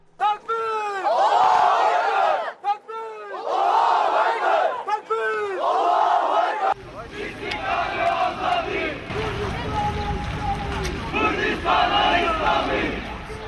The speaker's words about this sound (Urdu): بوڑھے اور نوجوان ہر سمت سے اللہ اکبر اور اسلامی کردستان کے نعرے لگاتے ہوئے آئے۔